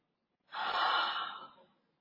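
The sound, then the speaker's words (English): A single deep breath drawn in, a smooth airy inhale lasting just over a second that swells quickly and then fades, heard on its own against silence. “Now I want you to take a deep breath in”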